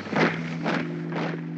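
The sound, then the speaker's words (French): Footsteps, three soft scuffing steps at an even pace over a steady low hum. “C'est le bruit des pas.”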